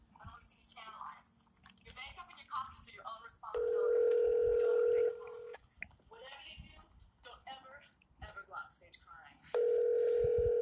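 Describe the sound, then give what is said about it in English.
Two long, steady telephone ringing tones sound as a call is placed, each lasting over a second, separated by a stretch of softer mixed noise and voice-like sounds. “So we're going to call him back real quick.”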